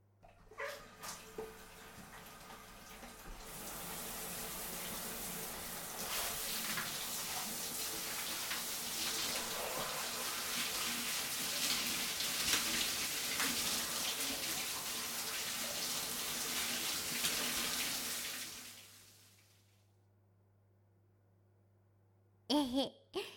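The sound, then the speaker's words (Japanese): Water pours to rinse someone off in a bath: a steady rushing stream runs for about fifteen seconds, then stops. A few soft knocks come before it, and two brief sharp sounds follow at the end. “はーい、流すわよ。”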